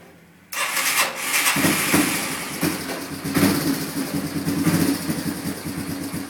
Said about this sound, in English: here's a quick little update on the Yamaha. We got the motor in it. Starter up top, we still have to adjust the carburetor some, but she runs.